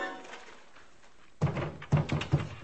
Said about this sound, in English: she fell. She'd been propped up in the tub behind the shower curtain. But she fell out, hitting with a horrible limp sound.